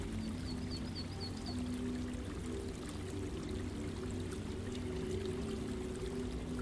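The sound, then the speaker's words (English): Water falls and tumbles down stepped stones in a garden water feature, a steady, even rush with a low hum beneath it and a brief high chirping near the start. “it falls and tumbles down a series of stepped stones, creating the most lovely water feature.”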